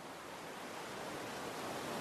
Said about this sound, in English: The relaxing sound of the water tumbling over the rocks gives you a sense of calm.